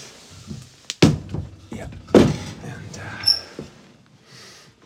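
Firewood is handled to start a fire, with a few dull wooden thunks and knocks separated by quieter rustling and shuffling.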